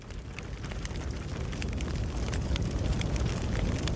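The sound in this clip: Crackling fire: a steady, loud bed of rushing noise studded with many sharp pops and snaps throughout, with no voices.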